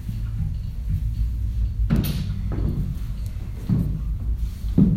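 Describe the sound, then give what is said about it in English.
Two yoga blocks are picked up with a few soft knocks and dull thuds, spaced apart over a low, steady rumble. “Grabbing your two blocks.”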